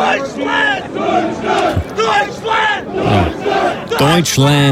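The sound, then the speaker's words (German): A crowd cheering in American style, with loud, rhythmic group shouts rising and falling in repeated bursts, voices strained and chant-like, with no talk. “Ja, man muss sie halt ein bisschen anfeuern. Und in Amerika klingt das ein bisschen so.”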